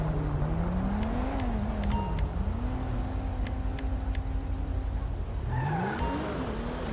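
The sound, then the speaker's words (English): Video game car engine drones steadily as the car brake checks, its pitch dipping briefly, then climbing sharply near the end as it speeds off, with a few faint clicks scattered above the hum. “Love how he just brake checks me and speeds off.”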